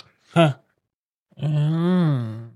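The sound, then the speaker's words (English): A voice imitates a person snoring and moaning in their sleep: a short, rough snort, a pause, then a long, wavering, groaning moan that holds for about a second. “What's funny is when you snore, you moan too.”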